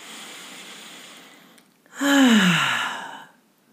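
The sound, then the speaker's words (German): Slow breathing: a quiet, airy inhale, then a longer, louder sighing exhale with a faintly voiced, falling tone, as part of a guided self-care breathing exercise; no speech. “Lass uns mal gemeinsam ein- und ausatmen und dabei atme gerne länger aus.”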